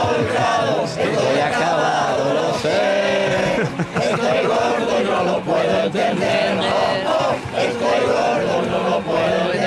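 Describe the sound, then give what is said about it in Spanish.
A crowd of hundreds sings together on Gran Vía, a loud continuous chorus of many voices rising and falling in unison with brief dips between phrases. “Una multitud se ha reunido aquí en la Gran Vía, cientos de personas cantando”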